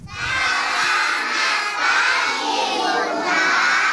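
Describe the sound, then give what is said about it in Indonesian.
Kindergarten children shouting together in a radio studio, a loud, sustained, high-pitched crowd cheer that dips briefly about halfway through and again near the end. “Wah, senang sekali ya hari ini studio RRI jadi ramai dan penuh semangat. Hari ini Bunda pembawa pasukan hebat dari TK”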